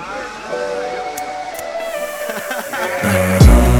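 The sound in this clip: Car drifting on worn tires, giving a sustained, whining, layered squeal that holds steady and then grows louder near the end, where a sudden swooping tone and a low roar break in.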